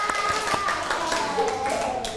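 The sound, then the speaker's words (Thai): Students in a classroom clap for themselves: a few scattered, sharp hand claps ring out at uneven intervals while voices talk over them. “เก่งมากๆเลยค่ะปรบมือให้ตัวเองหน่อย”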